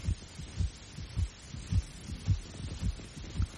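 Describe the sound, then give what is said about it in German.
A pounding heartbeat of someone climbing a steep, icy slope: steady, muffled low thumps in a regular rhythm, alone and fairly faint. “Das Herz schlug mir im Hals.”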